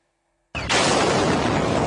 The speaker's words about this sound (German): Dieses Video zeigt, wie im Zentrum der Stadt Sumy im Nordosten der Ukraine zwei russische Raketen nacheinander einschlagen.